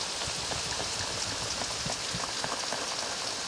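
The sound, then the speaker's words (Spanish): Rain falls steadily on a surface, a dense, even patter of drops that stays constant throughout with no other sounds. “Parece que llueve otra vez.”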